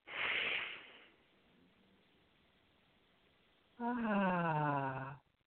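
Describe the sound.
Breathing in and out during a laughter yoga breathing exercise. A breathy rush comes first, then a quiet pause, then a longer voiced, humming exhale with a clear tone.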